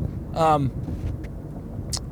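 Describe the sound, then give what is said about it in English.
A car drives through downtown Los Angeles in the afternoon, its low engine and road hum running steadily beneath a man talking. “This is a weird one because I'm driving.”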